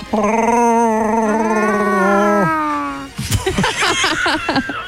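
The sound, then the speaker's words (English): A human voice imitates a growling, hairy sci-fi creature, starting with a long wavering howl that drops off sharply. Choppy, rough growling bursts follow. “Never tried to do your own Chewbacca sound?”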